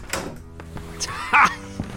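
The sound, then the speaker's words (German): A door opening inside a house. A few soft thuds are followed by a louder, brief burst near the middle and a final light knock, with no voices. “Psst. War das die Tür?”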